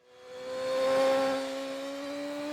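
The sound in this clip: A BMW S 1000 RR motorcycle ridden hard at the limit gives a smooth, buzzing engine note that swells to a peak, eases slightly and then holds steady.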